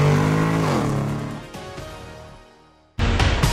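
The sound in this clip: A car engine is shifted into first gear and accelerates: the engine tone drops and fades over a couple of seconds, then a sudden loud surge of engine noise kicks in near the end.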